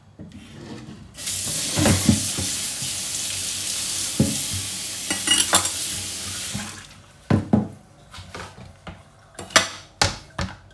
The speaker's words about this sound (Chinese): 好，我们半边的洋葱切好了，我们先把菜板冲一下，有味儿。